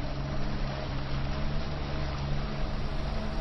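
A motorboat engine drones on the bay in a steady, loud hum with a broad wash of water noise, its low tone holding even throughout.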